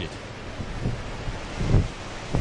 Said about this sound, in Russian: Я подхожу к берегу, и тут ветер дует, и туман несет.